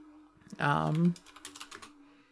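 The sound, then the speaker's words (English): Typing on a computer keyboard: a short burst of quick, light key clicks right after a brief spoken sound, then trailing off into quiet. “Oh, this is exciting. Listening to me type as I wake up.”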